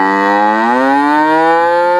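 A cow gives one long, loud moo that is held steady for about two seconds. Its tone rises slightly partway through and stays low and rich, with no other sounds around it.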